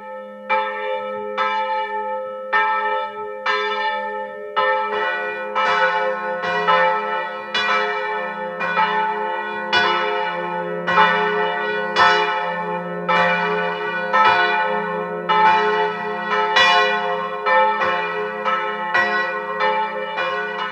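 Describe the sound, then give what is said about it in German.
Church bells of a Protestant parish church in Unterschützen, Burgenland, ring at noon: many bright, regular strokes with long ringing overtones over a low sustained hum, continuing steadily throughout with no voices. “Sie hören die Glocken der evangelischen Pfarrkirche von Unterschützen im Burgenland.”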